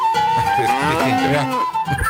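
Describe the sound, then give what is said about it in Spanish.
A cow moos in one long, loud, drawn-out call lasting about two seconds, its low tone wavering and sliding with no other sound. “Pobre la vaca.”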